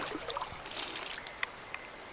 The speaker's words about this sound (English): Dirty water. Let's give it a drink.